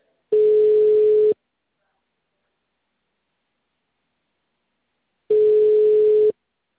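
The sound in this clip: Telephone tone after a dropped call: two identical one-second beeps at a steady mid pitch, separated by a long stretch of silence.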